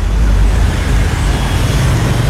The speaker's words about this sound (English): You join me back on the roof of the Corn Exchange, seeing how things are looking. Traffic seems to be moving okay across town.